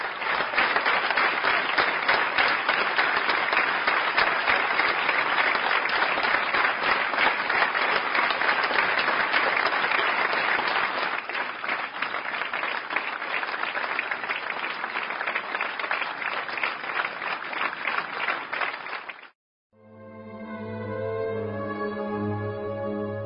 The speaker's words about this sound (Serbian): i dugim aplauzom, svi su se oprostili od velikog glumca.